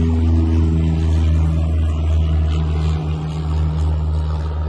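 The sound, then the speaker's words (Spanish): An airplane passing overhead gives a loud, steady low drone that holds throughout with no clear rise or fall and no voices. “un momento, está pasando un avión.”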